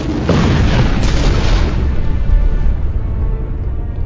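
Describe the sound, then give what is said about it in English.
An explosion of dozens of red marbles sends napalm-like fire across a room: a loud, broad boom followed by a sustained roaring rumble lasting several seconds, gradually easing toward the end. “The dozens of red marbles explode, sending napalm-like fire across the room.”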